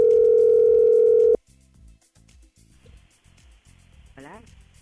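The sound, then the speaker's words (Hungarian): A loud, steady telephone dial tone holds for about a second and a half as a call is placed to a listener. It then cuts off abruptly and voices begin talking. “Hívjuk a nap hallgatóját rögtön.”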